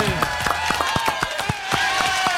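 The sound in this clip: A handful of people clap sparsely to applaud a guest introduced at a live event. The distinct, irregular claps sound beneath ongoing talk.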